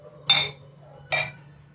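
Glasses clink together in a toast: two bright, separate clinks, each with a brief ringing tail that fades, over a low steady hum, with no talking.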